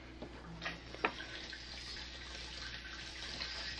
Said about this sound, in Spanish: Voy a lavar los trastos de losa, mamá.